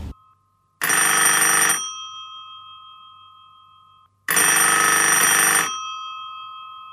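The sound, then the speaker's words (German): A telephone rings for an incoming call in two bright electronic bursts about two and a half seconds apart. Each burst lasts roughly a second, and its steady tone lingers faintly until the next ring. “Eigentlich müsste gleich Ihr Anruf kommen.”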